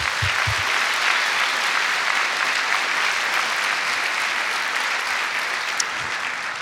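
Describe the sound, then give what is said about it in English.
Sustained audience applause welcoming two guests onto a stage before a moderated dialogue, a dense, even wash of many hands clapping at steady loudness for several seconds with no talk over it. “So why don't we put our hands together and welcome them here tonight.”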